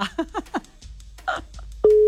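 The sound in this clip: A telephone ringing tone sounds on a call placed during a prize game, a single steady pure tone that starts abruptly after brief talk and holds to the end.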